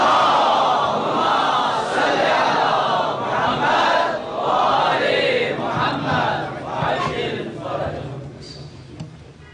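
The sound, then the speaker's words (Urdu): A large crowd loudly chants salawat in unison for the health and long life of the Supreme Leader, many voices swelling and rolling in waves before the chant thins out toward the end. “برائے صحت و سلامتی رہبر معظم ان کی صحت میں ان کی درازی عمر کے لیے بآواز بلند نعرہ صلوات”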